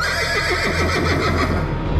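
A horse neighs in one loud, sustained whinny lasting about two seconds, its pitch wavering and trembling as it calls out.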